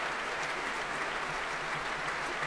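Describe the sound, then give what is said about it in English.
Symphony orchestra members applaud a soloist returning to the front of the concert platform. The clapping forms a soft, steady wash of many hands at even loudness, with no voices. “The members of the São Paulo Symphony Orchestra applauding Nelson Freire as he returns to the front of the platform.”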